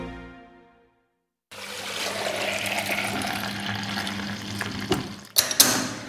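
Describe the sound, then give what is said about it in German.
Raw milk running from a shiny milk tank into bottles, filled one after another. A steady liquid rush starts abruptly after a short silence and flows evenly, with a few brief, sharper knocks near the end. “Da fließt sie, die Rohmilch.”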